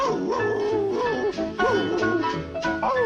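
Dogs howling and yipping over a telephone line, a continuous run of thin, wavering pitched cries with a steady low backing underneath.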